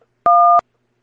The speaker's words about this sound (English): If you know your party's three-digit room number, please enter it now. Punch it in?